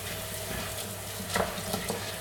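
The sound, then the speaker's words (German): Sizzling and stirring of risotto rice and onions just deglazed with a splash of white wine. A soft, steady hiss runs throughout, with a few louder scraping strokes near the end. “wir löschen diesen Risotto-Reis und die Zwiebeln mit einem Schuss Weißwein ab. So, wunderbar. Auch wieder fleißig umrühren.”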